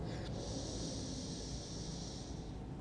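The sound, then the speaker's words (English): A long inhale through the left nostril in a breathing meditation: one soft, steady airy hiss lasting a little over two seconds, heard alone without speech. “And then when you're ready, you're going to plug the right nostril. Breathe in left.”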